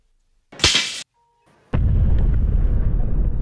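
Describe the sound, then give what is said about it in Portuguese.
A sound effect of a droid's head exploding in a role-playing game: a short hissing burst, a brief gap, then a heavy blast that turns into a loud, sustained, roaring rumble. “A cabeça dele explode e ele vai se desmontando aos poucos.”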